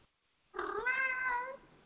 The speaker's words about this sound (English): My cat's coming to... He's breaking the environment.